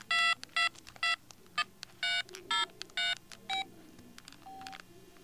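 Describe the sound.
Keypad tones from a mobile phone with a dead battery: a quick series of many short, fairly quiet dialing beeps in uneven rhythm, ending in a longer, lower tone.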